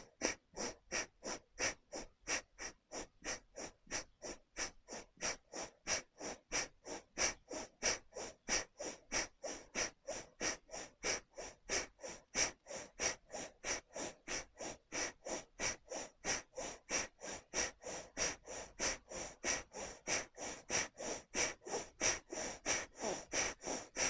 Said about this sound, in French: Et on y va pour quelques inspires-expires puissantes que par la narine gauche.